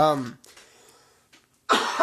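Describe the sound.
A single cough from someone with a tickle in the throat: a loud, rough burst near the end, after a brief stretch of voice and a quiet gap.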